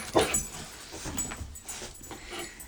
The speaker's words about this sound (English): Ignore the dogs. Pay no attention to the dogs behind the podcast.